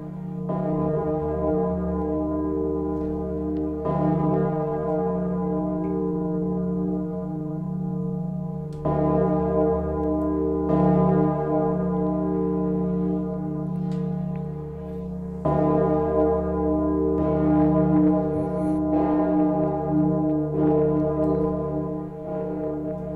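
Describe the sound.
Buddhist temple bell tolling: several deep, heavy strikes, each followed by a long, humming resonance that carries over into the next, steady and unaccompanied by voices.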